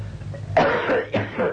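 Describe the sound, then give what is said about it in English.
Coughing from a person, two harsh, throaty bursts a short moment apart, fairly loud over a faint low hum, with no speech. “Excuse my coughing.”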